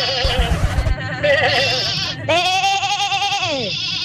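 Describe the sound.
A person imitates a sheep bleating for an animal-imitation contest. After a rough, noisy start come two loud, quavering bleats. The second is long and sustained and drops in pitch at its end.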